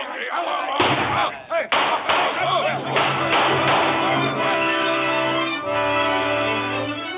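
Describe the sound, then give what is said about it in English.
Pistol shots in a pirate adventure audio drama: several sharp cracks go off in quick succession over a sustained musical score, with voices mixed in. “Long John Silver had fired only once. The other shots came from Dr. Livesey, the squire, Mr. Gray, and Ben Gunn.”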